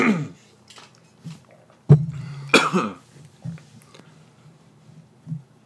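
A coughing fit from a throat tickle: a few harsh, loud coughs with quieter throat sounds and small bursts between them, spread unevenly across the moment.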